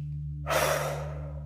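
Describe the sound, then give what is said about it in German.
One long, deep breath during a guided breathing exercise, starting about a third of the way in and fading slowly, soft and airy over a steady low hum. “Es ist wichtig zu atmen. Regelmäßig. Lang, tief ein und aus.”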